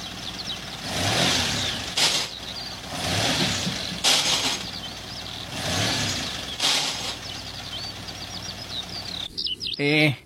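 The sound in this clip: A car engine revs in several loud surges while the driver cannot get it into any gear, with high squealing chirps over the roar and a harsher burst of noise at the end.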